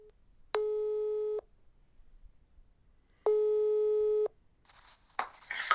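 Telephone ringing tone heard while a call is placed: two long, steady, buzzy tones of about a second each, separated by a silent gap, then a short burst of another sound.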